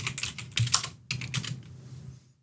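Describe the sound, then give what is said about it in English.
Rapid clatter of typing on a computer keyboard in two quick bursts split by a brief pause, crisp keystrokes with no voices. “What did you type in? What did you type in? PTSD radio anime.”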